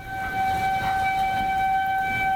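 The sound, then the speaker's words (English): An outdoor severe-weather warning siren in Norfolk, Nebraska sounds a steady, sustained tone with layered harmonics, holding at an even level for the whole stretch with a low background rumble beneath it. “When severe weather hits Norfolk, one of these outdoor sirens, as the one behind me, goes off.”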